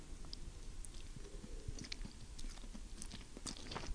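Soft, moist chewing of chewy noodles and shell-free clams in a buttery broth topped with parsley. The chewing is faint and steady, with small crunchy clicks and no talk.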